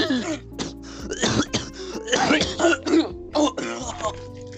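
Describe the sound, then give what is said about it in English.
A person coughs and clears their throat in several harsh, partly voiced bursts, loud and irregular, with short pauses between them. “I started coughing.”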